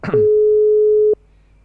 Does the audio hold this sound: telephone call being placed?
yes